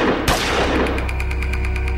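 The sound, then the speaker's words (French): Gunfire from a street shooting in Stockholm: a sudden loud blast opens a dense, sustained roar, with a rapid, regular crackle running through it. “mais à peine ont-ils fait quelques pas que soudain retentissent 2 bruits assourdissants.”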